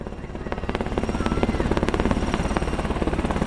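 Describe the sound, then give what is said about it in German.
A Black Hawk helicopter coming in to land, its rotor beating out a fast, steady, rhythmic thump over a loud engine whine that holds throughout. “Und ihr hört es bereits im Hintergrund, ein Hubschrauber landet hier hinein. Heute ist es ein Black Hawk.”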